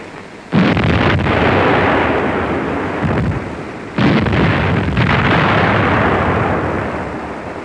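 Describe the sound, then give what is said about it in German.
Naval gun salvos fired from a German warship at a British cargo ship: two loud booming blasts several seconds apart, each followed by a long, rolling rumble that slowly fades. “Mit ein paar wohlgezielten Salven wird das Schiff unter Feuer genommen.”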